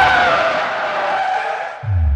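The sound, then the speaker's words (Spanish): A race car's tires squeal in a long, loud skid as it spins off the track with its brakes burning, the screech easing slightly lower before a low engine note rises at the end. “¡Jan derrapa! Veo que metió bien ese clutch y acelera para salir. ¡Pero no puede! ¡Hasta acá apestan las balatas! ¡Sale la pista y gira, y gira, y no!”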